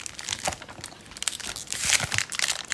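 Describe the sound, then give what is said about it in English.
Crinkling and tearing of packaging as a small box holding one pack of 25 trading cards is opened, soft irregular rustles that swell and fade, with no talk. “so you're going to open this small box of cards and see what you get.”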